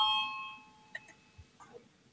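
A bell rings to call a parliamentary vote. One clear ringing tone sounds at the start and fades away, followed by a few faint clicks and knocks.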